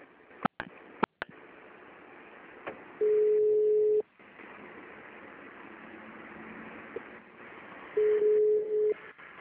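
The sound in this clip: Automated phone menu tone: two steady mid-pitched beeps, each about a second long and several seconds apart, over a faint line hiss, with a few sharp clicks at the start.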